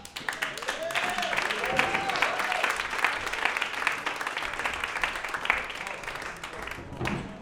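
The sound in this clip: Audience applause for a comedian as he is introduced on stage: dense, steady clapping runs through the whole clip at an even level, then thins slightly near the end.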